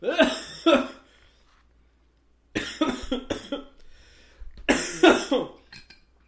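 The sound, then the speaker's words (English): Harsh, chesty coughing from someone whose allergies are acting up, heard alone as several loud bursts grouped in three clusters with short quiet gaps between them. “And so we apologize in advance if he's going to be debilitated by coughing and sneezing”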